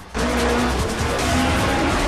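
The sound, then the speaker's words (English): Tires squeal as an Evo and a pursuing car skid round a corner past racks of boats. Loud, continuous engine roar and screeching rubber start abruptly and hold steady to the end. “Brian and Pierce skid round the corner past more racks of boats”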